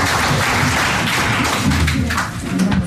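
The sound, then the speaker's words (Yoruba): A group claps after a riddle is answered, making dense, steady applause that runs through the whole moment without a break. “Ẹ̀fún látẹ̀wọ́.”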